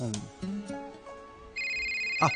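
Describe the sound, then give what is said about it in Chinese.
A mobile phone ringtone begins partway through: a steady electronic tone with bright, sustained pitches. It follows a stretch of talk and a few short sounds. “唔好意思啊，我听个电话先吓。”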